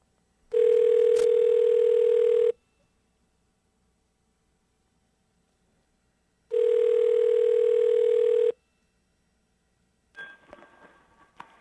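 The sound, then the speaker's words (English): Telephone line tones during an outgoing call: two long, steady electronic tones of about two seconds each, separated by a few seconds of silence, followed by a brief burst of soft noise at the end. “Aren't those pleasant sounds, the sounds of our numbers being dialed?”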